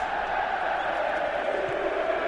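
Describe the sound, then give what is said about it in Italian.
Juventus fans singing in the stadium during a match against Monaco: a steady, fairly faint massed chant of many voices that holds evenly without clear breaks. “Cantano i tifosi della Juventus.”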